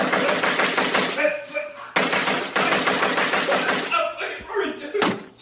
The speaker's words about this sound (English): You like getting shot? Do you like getting shot? I don't like it. Stop. Do you want me to stop shooting you?